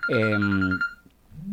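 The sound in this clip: A telephone call rings on the line with a brief electronic ringtone, a bright warbling tone lasting under a second before dropping to near silence.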